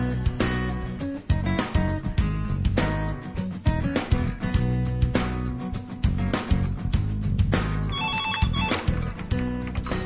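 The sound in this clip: A telephone rings with a busy musical ringtone while a call is placed, loud and continuous for about ten seconds with dense rhythmic beats and full-bodied tones and no voices.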